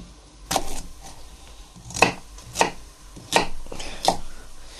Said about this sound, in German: einmal in der Mitte halbieren Vorsicht, nicht verletzen und dann auch in kleinere daumendicke Stücke schneiden.